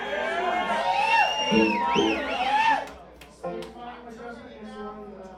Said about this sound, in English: Dude, they cheered for you. You didn't even. You didn't take a bow or anything.